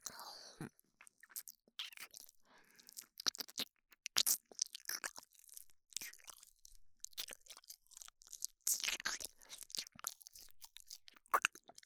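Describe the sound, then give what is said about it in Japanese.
Crunchy chewing and biting of a food ear. Many irregular crisp crunches and mouth sounds run through the whole clip with no talk. “それじゃあこっちの耳もいただきます。”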